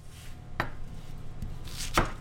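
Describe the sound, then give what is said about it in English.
Knife slicing through cabbage for a Hawaiian-style poke bowl at Bistro 913: two sharp, crisp chopping strokes with a fainter tap between them, over a low steady hum. “Slicing cabbage is actually not something you'd typically do when preparing a poke bowl”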